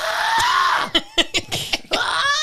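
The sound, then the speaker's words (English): A human voice imitating the shrill scream of peacocks in a cemetery at night: a drawn-out, high, strained wail, then a few short choppy bursts, then another rising cry. “I didn't know what peacocks sound like, but it sounds like murder.”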